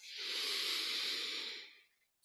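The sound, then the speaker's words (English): A single long, deep breath during a guided relaxation, a steady breathy rush lasting under two seconds, faint and alone with no talk. “And take a deep breath.”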